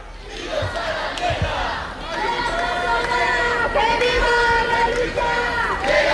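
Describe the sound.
Protest crowd chanting in front of the Congress of Deputies on Carrera de San Jerónimo in Madrid: many voices chanting and shouting together continuously, loud and steady, with the chant swelling in the second half.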